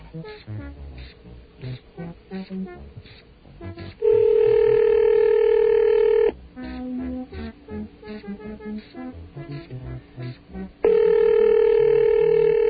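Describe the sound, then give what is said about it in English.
Telephone ring tone, two loud, steady, long rings lasting about two seconds each, separated by a stretch of mixed background sound. The second ring runs to the end. “It's a loud ring. Don't you think?”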